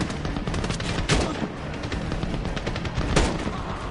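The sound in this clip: Video game gunfire, with rapid bursts of shots over a noisy backdrop and a couple of heavier blasts standing out from the steady stream of fire.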